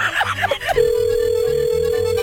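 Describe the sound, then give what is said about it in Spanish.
A telephone rings: a steady electronic ringing tone that holds with a faint pulsing beneath it, sounding loudly once it begins. “Pero es el teléfono de Mario.”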